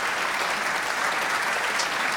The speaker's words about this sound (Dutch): Applaus voor het Franse trio Pantoum.